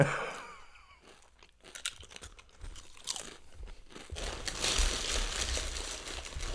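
Crunching of a single dill pickle potato chip being bitten and chewed, a run of dry, crackly crunches that grows louder and denser toward the end.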